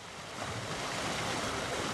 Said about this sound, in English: Here at the Melvin Price Lock and Dam near Alton, Illinois, water is gushing around the cement walls and lock chambers